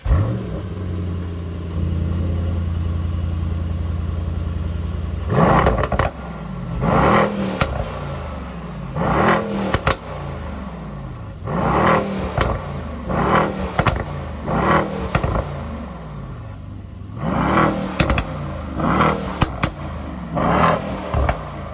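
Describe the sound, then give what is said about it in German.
A current Mercedes E-Class AMG 63 engine without a petrol particulate filter idles with a low, steady rumble, then revs in many sharp, loud bursts that each rise and fall in pitch, with crackling between blips. “ist die aktuelle Mercedes E-Klasse als AMG-Variante, also als 63er. Und wir hören uns jetzt erst einmal an, wie das Fahrzeug ohne OPF klingt.”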